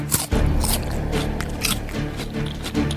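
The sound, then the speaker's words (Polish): Crisp crunching as someone bites into a raw slice of Jerusalem artichoke, a few sharp bites followed by steady, moist chewing, fairly loud and with no talk over it. “Pierwszy raz w życiu do ust wkładam plasterek topinamburu. Je się przyjemnie.”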